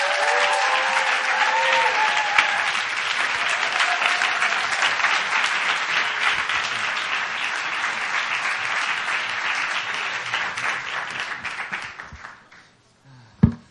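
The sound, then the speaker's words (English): An audience's applause welcomes a guest speaker in a church sanctuary: loud, dense, sustained clapping that holds steady for about twelve seconds, then fades away. A single sharp knock follows near the end. “And let's put our hands together. Welcome Alex Lim.”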